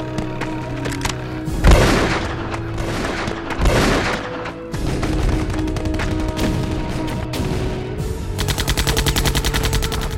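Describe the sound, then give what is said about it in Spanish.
Automatic AK-47 gunfire aimed at enemies while crossing a field under fire, with sustained rattling shots and heavy booming impacts, ending in a fast, rapid-fire burst. “Yo les estoy dando a los enemigos con una AK-47.”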